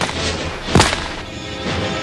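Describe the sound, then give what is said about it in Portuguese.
A single gunshot is fired at a boat in a radio drama. One sharp, loud blast cuts through a steady wash of background noise, then fades quickly. “E agora vai outro tiro.”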